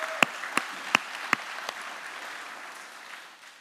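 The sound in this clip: A church audience applauds, with about five distinct sharp hand claps standing out over a soft, dense wash that gradually fades away; no talking.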